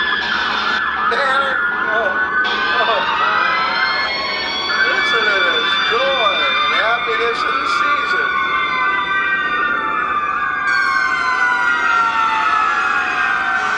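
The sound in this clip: Emergency sirens wail from military vehicles decorated for a Christmas event, with several rising and falling tones overlapping in a loud, continuous sweep that runs through the whole stretch.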